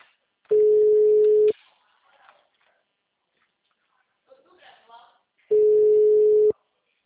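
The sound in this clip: Telephone ringback tone heard while a call is being placed: two long, steady, mid-pitched tones of about one second each, separated by a gap of several seconds that holds only faint background sounds.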